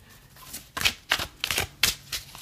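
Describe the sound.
Playing cards are shuffled before a card is pulled, with a few quick, crisp riffling bursts in an uneven rhythm and quiet pauses between them.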